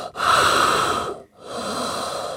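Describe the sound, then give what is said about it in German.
Heavy, exaggerated breathing imitated by a voice, as if through a thick mask: one long rasping breath with a brief pause, then a second, slightly quieter breath, with no words spoken. “kamen dann da so reingestiefelt mit so krassen Masken. Weißt du, waren dann da so am Atmen so.”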